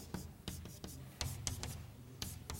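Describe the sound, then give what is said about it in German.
Faint scratchy strokes of writing the formula of ethane on a blackboard, many short, irregular marks in quick succession with small pauses between groups. “den einfachsten Vertreter der Alkane, nämlich das Ethan, an die Tafel schreibe”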